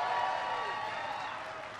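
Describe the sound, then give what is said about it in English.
An audience applauds after an introduction, a dense, steady wash of clapping and crowd noise that holds at an even loudness throughout. “Give me a big round of applause for that outstanding introduction.”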